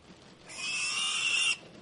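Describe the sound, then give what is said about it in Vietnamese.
Pigs squealing loudly at a village livestock area: one shrill, high-pitched cry held steadily for about a second before it cuts off abruptly, with no voices. “Tiếng mấy con heo kêu inh ỏi phát ra.”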